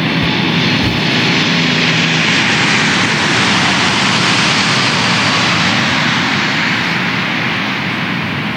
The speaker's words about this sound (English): When this airplane comes by, sometimes the wing vortices that they take off actually knock them to the ground.